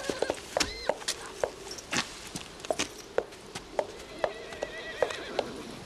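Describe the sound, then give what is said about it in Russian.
Horses neigh and their hooves strike the ground as riders stop and dismount. Many irregular clops and thuds sound, with a short whinny early on and a longer neigh near the end, all fairly faint. “Останавливаются и спешиваются с лошадей.”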